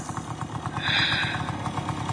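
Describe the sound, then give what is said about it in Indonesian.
Old, temperamental motorcycle engine prone to stalling, running with a steady, rapid low putter and mechanical clatter, holding an even loudness without revving up or dying. “Motor tua ini memang agak sedikit manja.”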